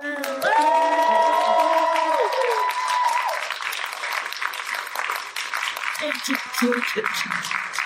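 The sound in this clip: Audience applause and cheering as voice actress and princess of power Melody Britt is welcomed onto a panel stage. A voice calls out over the opening, the clapping continues steadily and loudly, and talk resumes near the end.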